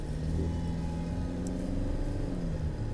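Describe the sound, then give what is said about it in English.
A car driving in traffic: a steady, low engine rumble with a constant drone that holds at an even level for the whole stretch. “Sorry, I'm busy driving and there's a guy that just almost drove into me.”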